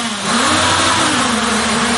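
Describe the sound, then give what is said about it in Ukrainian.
Motors of a combat drone are test-run in a drone battalion's workshop. A loud, steady, buzzing whir swells up early and then holds at an even level throughout. “Цей дрон не в полоні і йому нічого не загрожує. Це лише тестування його двигунів.”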